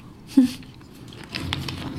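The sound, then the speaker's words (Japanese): A sip of water being drunk: one brief, wet gulp stands out, followed by a quieter stretch of soft mouth and swallowing noise. “まずはお水を一口飲みましょう。もう一口”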